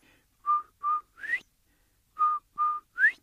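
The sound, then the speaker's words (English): Whistling imitating a quail's call: two matching groups of three clear notes, two short steady tones then a quick upward-sliding note, separated by a pause, soft and alone with no voices. “No, Quail's gone. And so is his beautiful whistle. And way off in the distance, he hears that beautiful sound.”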